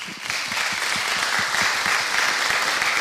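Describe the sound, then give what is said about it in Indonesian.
Applause from a small audience after Malay verses are recited, many overlapping hand claps with distinct low thuds, steady and even from start to finish. “Yang tepuk itu mesti kawan-kawan saya.”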